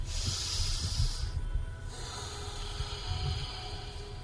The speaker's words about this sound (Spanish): Uno, respira.